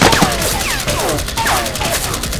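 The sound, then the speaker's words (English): A burst of automatic rifle fire as a sound effect: a loud, continuous stream of rapid cracks with whizzing tones sweeping through. “He dropped flat as a burst of fire cut through the air over his head.”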